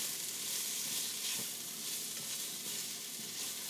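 Salt pork sizzles in a pan, a steady crackling fry with fine popping and a brief knock partway through, moderately quiet and continuous with no talking.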